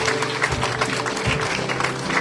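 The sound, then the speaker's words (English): A church audience gives a round of applause for a group of eight or nine men, a thick, sustained wash of clapping hands at an even, moderate loudness. “We give these 8 or 9 guys a round of applause. Well done.”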